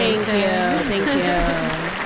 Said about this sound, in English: Is there an applause one? Yeah, of course. Oh wait, I don't have the sound effect thing on.